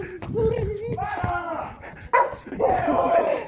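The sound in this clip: A dog gives rapid, high-pitched yelps and whining barks in excited bursts, mixed with agitated human voices throughout.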